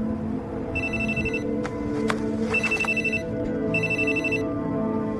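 A telephone rings with an incoming call, giving three separate bursts of a bright, high electronic ringtone over a low, steady background, with a few sharp clicks in between.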